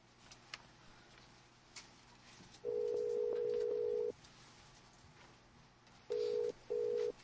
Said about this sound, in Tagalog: Tawagan ko siya. Kadali, ha.